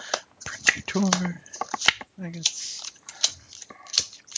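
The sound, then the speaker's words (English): Playing cards being dealt during a tabletop role-playing game session: quick, crisp snaps and flicks of cards scattered among people talking over them. “For some reason, I am dealing really high cards for the NPCs and really low cards for you guys.”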